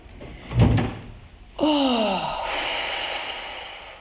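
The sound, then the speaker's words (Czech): A waiting-room door is shut with a dull thud, then a brief falling squeal and a lingering, quieter rasp follow. “Já musím zamknout čekárnu, aby nám sem už lidi nechodili.”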